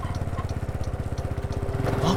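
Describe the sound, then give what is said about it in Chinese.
A motorcycle engine chugs in quick, regular pulses as it suddenly comes from the side at a street corner. The putter is mid-pitched and steady, growing a little louder at the end. “所以我骑到一个转角时，没有仔细看路况，或是说发生的当下我根本来不及反应，一辆机车就从侧边这样。”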